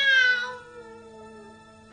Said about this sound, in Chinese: 喵，阿花做咩你？哎呀，哎呀，花要生啦！